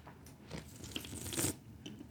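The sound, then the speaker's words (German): A big gulp of Citra-hopped milkshake IPA beer: quiet, wet swallowing and mouth sounds, a few soft bursts with no talk. “Oh, ich habe gerade einen sehr großen Schluck genommen.”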